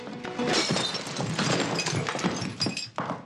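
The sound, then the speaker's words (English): Glass bottle smashed over a man's head: a loud shattering crash with a bright spray of splintering, clinking fragments that lasts about three seconds, with no talk. “Susan mouths, "Help me," and Roberta grabs a bottle and smashes it over Nolan's head.”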